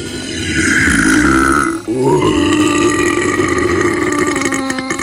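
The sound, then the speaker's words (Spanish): A long, loud, drawn-out burp that rumbles low and unbroken, dips briefly near the middle, then carries on to the end. No voices. “Pa' cerdo el eructo este.”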